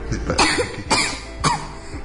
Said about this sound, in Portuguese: eu tô com tosse.